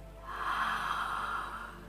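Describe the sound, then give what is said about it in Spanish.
A person breathes deeply, drawing one long, steady, airy breath that fills the whole two seconds at moderate loudness, with no talk over it. “empieza a respirar”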